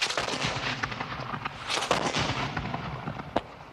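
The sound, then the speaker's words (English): Artillery bombardment with explosive rockets and shells makes a dense, continuous rumble of overlapping blasts and crackling reports. A sharp, loud crack stands out near the end. “Artillery bombardment. Explosive rockets and shells which had never been seen in New Zealand before.”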